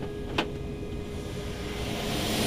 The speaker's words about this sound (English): this is where the auxiliary power unit that's running is actually right back here under the plane. That's what you're hearing.